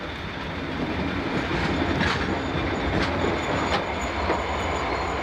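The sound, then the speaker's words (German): Train pulling into a railway station in Carlisle, heard as a steady loud rolling rumble with faint rhythmic wheel clicks and a few brief high squeals as it slows; no voices. “Planmäßig muss der Zug jetzt auf den Bahnhof von Carlisle einfahren.”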